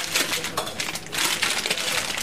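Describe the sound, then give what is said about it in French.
Rustling and crinkling of wrappers as cheese and small Breton food products are unpacked, a busy, uneven stream of soft scrapes and crackles. “Et bien là, je déballe un certain nombre de produits parce que le fromage, c'est un produit vivant.”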